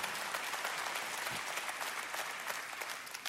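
Steady applause from a church audience during a sermon, a dense, even wash of clapping that holds at a constant level for a few seconds with no voices over it.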